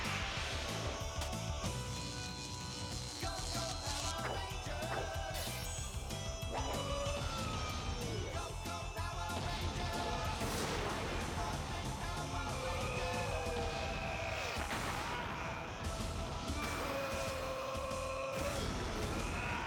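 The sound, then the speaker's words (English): Battle sound effects from Power Rangers Dragonzord footage form a dense, unbroken layer of crashing impacts and whooshes mixed with tonal, music-like lines, loud and steady throughout. “Except that was Dragonzord battle move footage.”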